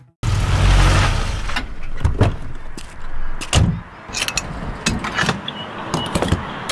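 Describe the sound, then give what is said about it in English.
Fuel pumping into a car's tank at a gas station in Iowa: a loud, steady rushing hiss with scattered clanks and clicks running throughout, with no voices. “Hear that? It's your paycheck going straight into the tank. Record gas prices in Iowa.”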